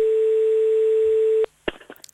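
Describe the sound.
A telephone tone sounds while calling France's emergency medical number, holding one unbroken mid pitch for about a second and a half before cutting off abruptly, followed by a few faint clicks.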